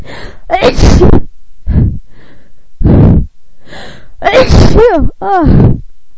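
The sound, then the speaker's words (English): Repeated sneezing from one person, a run of loud, explosive bursts broken by sharp, gasping inhalations and short pauses, several in a row with no clear talk between them. “I can't stop. Stop sneezing.”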